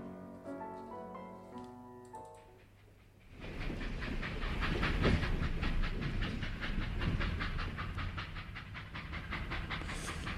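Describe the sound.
Train carriage sound effect: rhythmic clickety-clack of wheels over a steady rumble and hiss, loud and continuous, following a few seconds of melodic tones at the start.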